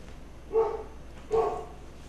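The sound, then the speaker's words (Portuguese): A small female dog barks twice, two short, mid-pitched barks spaced under a second apart, standing out clearly over a quiet background. “Vê para mim logo o que aconteceu. A cachorrinha está latindo aqui.”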